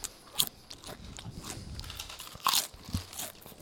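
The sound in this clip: Crunching and chewing of tomato-and-herbs flavoured potato chips, with a few sharp, loud bites standing out over steady, quieter munching and no talk.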